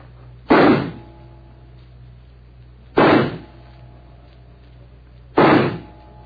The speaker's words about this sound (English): I'll just check that it's loaded. Yes, 6 bullets. All right, here I go.